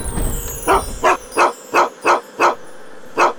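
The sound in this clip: A dog barks outside in a regular run of seven sharp, mid-pitched barks over a low rumbling background.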